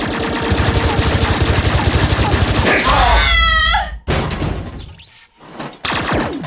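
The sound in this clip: Cartoon gunfire rattles out in a rapid, dense stream of shots for about three seconds, followed by a few sharp, loud blasts with brief gaps between them.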